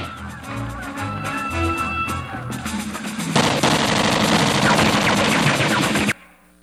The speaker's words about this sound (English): And one day, his unit is out on the rifle range practicing their M16s, and this happens.